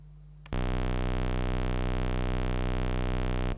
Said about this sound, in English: Now the pink thing is the square wave I extracted from that,